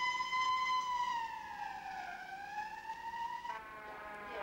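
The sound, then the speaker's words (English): The siren of a white stretch ambulance passing a car on a flat country road: a loud, wavering wail dips in pitch, climbs back up, then shifts to a new tone, over a low steady rumble. “A wide view of the white stretch ambulance as it passes a car on a flat country road.”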